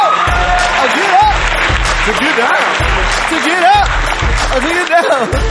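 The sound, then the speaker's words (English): An audience clapping and cheering at a show, dense continuous applause under a man's loud excited talk, with a steady thumping beat pulsing underneath. “Why y'all stop clapping?”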